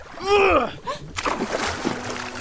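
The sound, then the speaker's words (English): Oars tossed into Fire Lake: after a short voice, a sharp, loud splash bursts out, followed by softer sloshing and dripping water. “Did you just toss our oars away? I did.”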